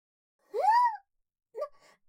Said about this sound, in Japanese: ダメですよ、泣いたって。泣き落としはネカフェで経験済みですから。そんな世界の終わりみたいな顔でワンワン泣いたって